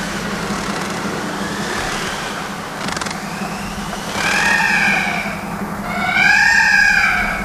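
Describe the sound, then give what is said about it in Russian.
Peacocks call from a cage in a botanical garden: two loud, wailing, harmonic cries, the second longer and higher, over a steady low rumble like road traffic. “Что это? Павлины проклятущие. Их тут в ботаническом саду в клетке держат.”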